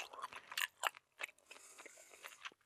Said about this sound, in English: It's the sound of someone chewing.